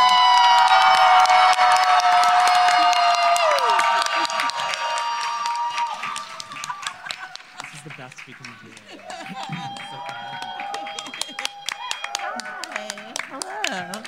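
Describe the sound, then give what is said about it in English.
Audience applause and cheering greet a comedian as she is introduced: loud, dense clapping, shouts and whoops that gradually thin out, with a voice talking over the dwindling crowd noise. “Put your hands together and open your ears. For Tammy Sager!”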